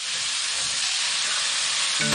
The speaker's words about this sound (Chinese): 花椒 ，对，花椒爆香，加这个主要是炒它的颜色，炒了之后它颜色不是就好多了吗？